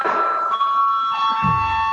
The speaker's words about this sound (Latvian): Lūdzu zvanu.